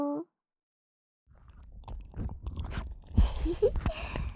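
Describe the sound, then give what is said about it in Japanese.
Wet, sticky squelching and rubbing from an oil massage of the ears, a head-spa ASMR treatment: after a brief pause, soft irregular squishes and slick crackles build, close and fairly faint. “何をしてるかわかるうさ。 なんかいやらしい音がするって。も う違ううさ。これはお耳をオイルマッサージしてるうさよ。”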